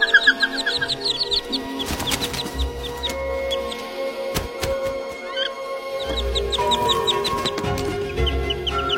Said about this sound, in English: The wood ducklings are just a day old and are about to face one of the biggest tests of their lives.